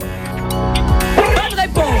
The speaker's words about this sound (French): C'est un chien derrière.